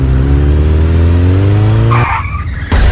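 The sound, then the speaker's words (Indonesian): Motorcycle engine roaring and revving with its pitch climbing steadily, then abruptly cut off by a brief squealing skid as the bike goes down. The sound is loud throughout and has no voices. “Aduh, yang kok kamu bawa motornya nggak bener sih? Jatuh kan?”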